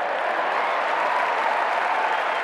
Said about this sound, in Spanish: Empezaron los aplausos, esta vez por las autoridades, y la multitud siguió con gritos y elogios festejando al profesor.